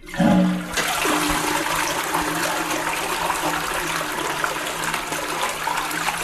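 A toilet flushes loudly: a brief low tone at the start, then a steady, continuous rush of water that lasts to the end.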